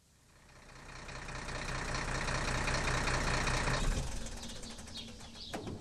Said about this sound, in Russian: Грузовик проехал ворота и остановился возле бетонных блоков, перегораживающих дорогу.